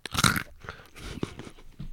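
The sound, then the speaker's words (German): Crunching and chewing of candied roasted almonds: one loud, brittle bite crunch at the start, followed by softer, irregular chewing crunches close to the mouth. “So, gebrannte Mandel, 1, 2, 3 mit Knack.”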